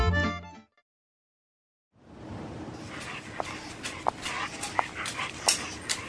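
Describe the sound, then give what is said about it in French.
A dog in a park, heard as breathy panting and snuffling over steady outdoor noise, with a few brief sharp sounds, following a short opening sound and a silent pause. “Bonjour madame, vous savez que les chiens sont interdits dans ce parc.”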